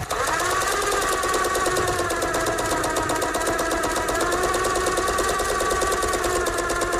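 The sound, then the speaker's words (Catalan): A domestic sewing machine runs at a steady, rapid mechanical chatter, with a dense buzzing rattle holding an even pace and loudness throughout and no voices. “no sé si era una Vertem, una Singer, no, em sembla que tenia una Vertem, ma mare, una màquina de cosir”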